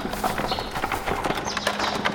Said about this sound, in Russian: А вон телега подъезжает. Она-то нас и интересует.